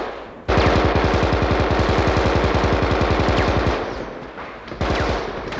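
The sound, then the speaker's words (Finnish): Machine gun firing wildly in a long sustained burst of rapid, evenly spaced shots, loud and continuous for about three seconds, followed by rougher noise and another loud burst. “Tämä pyöritti konekivääriä niin paljon kuin johtokehä antoi myöten ja ampui silmittömästi.”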